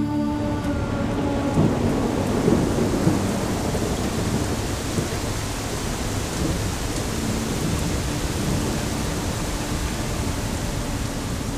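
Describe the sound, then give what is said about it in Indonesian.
Heavy morning rain pours down in a dense, steady hiss, with a low rumble of thunder rolling beneath it early on. The downpour stays loud and continuous throughout, with no voices. “Pagi itu, hujan turun dengan sangat deras.”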